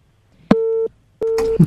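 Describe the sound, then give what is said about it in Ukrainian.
Telephone busy signal after a dropped call on a live phone-in: two steady, loud, mid-pitched beeps separated by a short silence, the second cut off by a burst of noise. “На жаль, зірвався дзвінок.”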